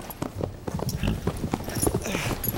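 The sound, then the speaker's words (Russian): Horse hooves clip-clopping as cavalry cadets halt and dismount, one holding a lathered horse by the reins: many irregular hoof knocks and shuffles, fairly loud and dense, without voices. “Юнкер Тучевский держит за повод взмыленного коня. Спешившись, с трудом распрямляет затекшие ноги.”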